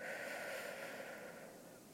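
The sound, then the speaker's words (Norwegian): A slow, deep breath is drawn in during a breathing exercise, a soft, steady airy rush that tapers slightly toward the end. “Vi kan ta en liten pusteøvelse sammen før vi starter denne episoden. Så vi skal trekke inn.”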